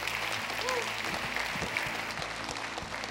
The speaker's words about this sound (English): Why don't we put our hands together this morning and welcome some new people into God's family.